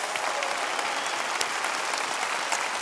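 A Lakewood church audience applauds as a big welcome to the television audience. Dense, steady clapping continues throughout without talk.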